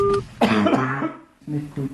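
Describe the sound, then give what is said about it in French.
Rough coughing from a 54-year-old man who is ill with fever and diarrhoea: a harsh, voiced burst near the middle, then quieter throaty sounds that trail off. “Un monsieur de 54 ans qui tousse et qui a de la diarrhée.”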